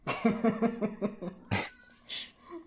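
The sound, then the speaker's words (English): A male house cat meows in a drawn-out, warbling run of pulsing calls, followed by a few shorter, scattered cries. “if you can hear my cat, I am sorry, he's meowing a little bit”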